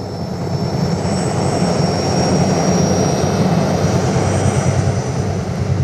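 Helicopter engine noise: a steady, loud roar with a thin high whine running over it, holding at the same level throughout with no voices.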